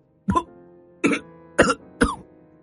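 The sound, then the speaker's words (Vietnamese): A gaunt young man, clutching his chest, coughs hard: four harsh, rasping coughs in quick succession with brief quiet gaps, and no other sound around them. “Không nói được hoàn thiện một câu, người kia ôm ngực ho rũ rượi, tưởng như sắp thổ huyết đến nơi.”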